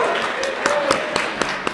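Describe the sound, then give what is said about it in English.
A round of audience applause for an artist at a sponsor thank-you, many hands clapping in a steady wash with a few sharper claps standing out. “Please give Andy a big round of applause.”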